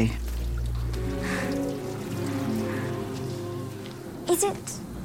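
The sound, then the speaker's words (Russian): Water sprays and splashes from a broken pipe by a row of washroom sinks in a film scene, a steady hissing wash of noise that holds evenly throughout. “Вода брызгает из разбитой трубы.”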